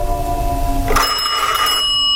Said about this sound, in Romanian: Într-o seară din asta a sunat telefonul.